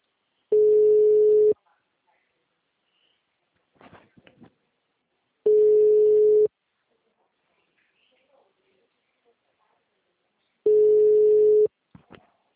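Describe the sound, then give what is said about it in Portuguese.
Ringback tone of an unanswered telephone call: three steady, mid-pitched tones of about one second each, repeating at even intervals with long silences between them and a few faint clicks in the gaps. “Tô ligando pra ela.”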